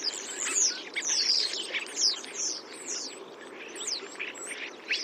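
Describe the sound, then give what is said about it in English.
Starlings chattering in small groups on telephone and electricity wires on a winter afternoon: dense, overlapping high chirps, clicks and whistles form a continuous busy chatter with no pauses. “It's the sound of winter afternoons. The chattering of starlings gathering in small groups on telephone and electricity wires around the country.”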